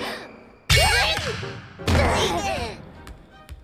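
A ball struck on a serve: two sharp, loud whacks about a second apart, each trailed by a wavering, ringing tail, with a small tap near the end.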